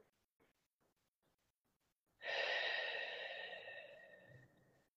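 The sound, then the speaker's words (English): A long, breathy exhale during a guided meditation breaks in suddenly after near-silence, then trails off slowly over a few seconds. “And just take one more deep deep breath in.”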